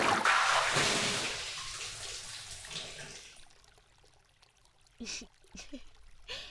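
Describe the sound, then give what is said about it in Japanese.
Hot bath water gushing as it overflows a tub, a loud rushing wash that fades steadily over about three seconds, then a few brief quieter sounds. “今めっちゃお湯あふれていった”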